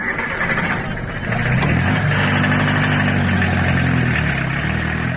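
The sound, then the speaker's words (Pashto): A taxi's car engine runs with a steady low hum that grows a little louder and fuller after the first second or so, then holds an even drone with no voices. “راځه ما ته ټیکسی نیولی دی، یو ځای به سره لاړ شو.”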